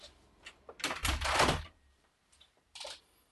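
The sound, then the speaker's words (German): Window being closed: a faint click, then a louder rolling slide and rattle of the frame, followed by a few soft clicks and a final muffled thunk as it shuts. “Moment, ich muss hier mal das Fenster zumachen, es wird ein bisschen laut draußen.”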